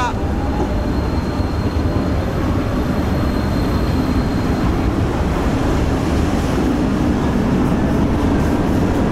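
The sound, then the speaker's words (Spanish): A departing train, heard as a loud, steady rumble and clatter with wind-like noise throughout, and no clear separate events standing out. “¿No te dije yo que teníamos que llegar antes? Que se nos escapa el tren, venga. Saltamos, a la de una, a la de dos, a la de tres.”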